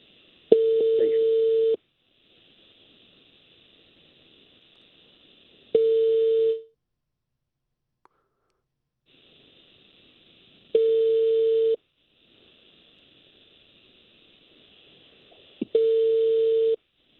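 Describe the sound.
Calling tones from a phone call to a mobile: four short, steady tone bursts separated by long, quiet gaps, with a faint high hum between them.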